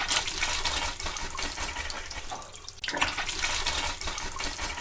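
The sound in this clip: Running tap water as someone washes their face: a steady, bright rush of flowing water that dips briefly near the middle and then resumes at the same level.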